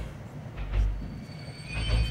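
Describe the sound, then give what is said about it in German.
A train braking to a stop, faint high squealing tones from the wheels over a low, swelling rumble, rising in two soft surges. “Na nun, was ist denn jetzt? Der Zug bleibt stehen.”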